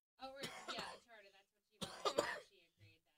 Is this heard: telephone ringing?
no

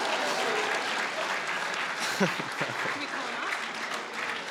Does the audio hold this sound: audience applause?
yes

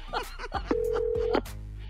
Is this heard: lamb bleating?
no

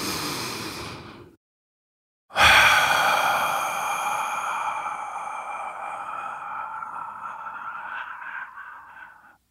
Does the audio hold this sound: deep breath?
yes

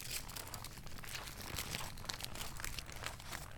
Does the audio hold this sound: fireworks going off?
no

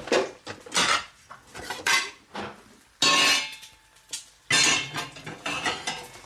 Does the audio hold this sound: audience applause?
no

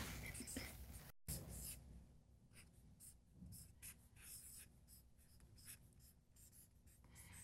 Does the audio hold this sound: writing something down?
yes

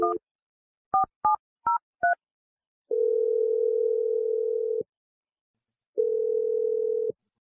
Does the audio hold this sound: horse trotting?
no

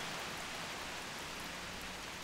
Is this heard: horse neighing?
no

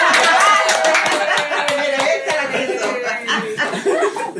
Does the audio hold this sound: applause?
yes

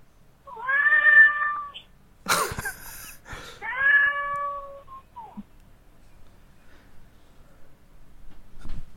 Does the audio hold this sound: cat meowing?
yes

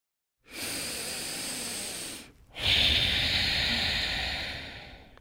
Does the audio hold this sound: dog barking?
no

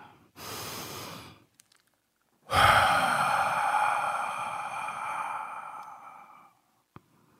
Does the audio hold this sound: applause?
no

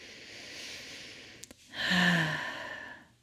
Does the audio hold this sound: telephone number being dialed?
no

